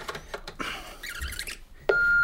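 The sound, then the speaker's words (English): An answering machine beep: after a short stretch of mixed, busy sound, a single clear, steady electronic tone starts and holds to the end. “Oh, look at all these flashing lights on the answer phone.”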